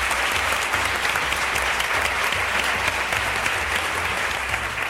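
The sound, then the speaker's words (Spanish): Steady audience applause welcoming a guest at a live show, a dense, even clatter of many hands clapping that holds unbroken for five seconds. “Un aplauso para él.”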